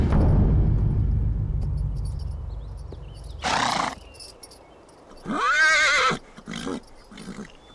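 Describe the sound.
Horses of approaching troops: a low rumble of hooves fills the opening seconds, then a brief snort-like burst follows, and a loud, wavering neigh rises and falls near the end.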